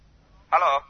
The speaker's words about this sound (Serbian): Na drugoj strani zvoni telefon.